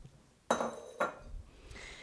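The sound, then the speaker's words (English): A utensil clinks against a pot as Rice Krispies are stirred into a marshmallow mixture: two sharp metallic knocks about half a second apart, then a softer scrape, over an otherwise quiet background. “once this is all stirred up together, we stir in the Rice Krispies. In go the Rice Krispies.”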